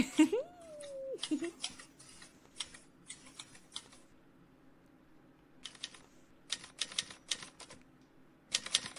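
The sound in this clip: Keyboard typing as someone starts writing, quick bursts of crisp clicks separated by pauses of quiet, with a brief vocal sound near the start.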